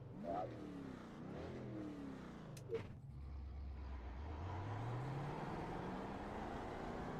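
Car engine revving in a racing video game, with several quick rising sweeps of revs early on, then a steady low drone that climbs slowly in pitch toward the end, loud and continuous with no talk.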